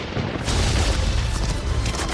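Video game gunfire roars in a dense, continuous barrage of booming, rumbling shots that blur together into one loud, steady wall of noise with no clear individual reports.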